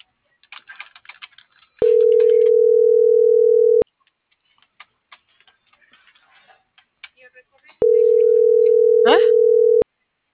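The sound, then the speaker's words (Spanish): A telephone line tone sounds as two steady, mid-pitched beeps of about two seconds each. Faint clicks and small noises fill the quiet gap between them. “estoy marcando.”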